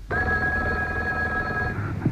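A telephone rings once, a steady, bright tone holding for about a second and a half before cutting off, followed by a brief low thump.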